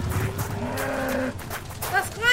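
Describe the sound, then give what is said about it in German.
A herd of cattle lowing, with several drawn-out, low moos that overlap and follow one another over a rumbling background. “Was geht da vor? Rindviecher!”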